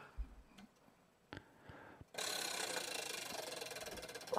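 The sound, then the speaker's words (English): A wheel being spun gives a loud, dense run of rapid ratchet-like ticks that continues steadily to the end, after a few scattered sharp knocks. “Spin that wheel, why don't you?”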